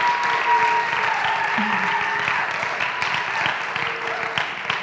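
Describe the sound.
Sustained applause from a church audience welcoming a woman speaker to the stage, a dense, steady wash of many hands clapping that stays loud throughout.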